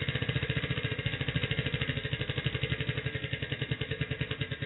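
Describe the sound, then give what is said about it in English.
Rapid ticking of a prize wheel spinning, its clicker rattling in an even, quick run of many sharp clicks that continue steadily from start to finish, with no talk. “let's spin the wheel here and see what we can win for Uta today”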